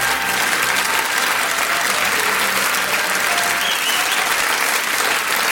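Loud, sustained audience applause welcoming a guest onto a show, a thick, even wash of many people clapping that carries steadily through the whole stretch.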